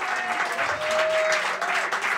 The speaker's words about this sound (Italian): perché l'applauso è prolungato, in effetti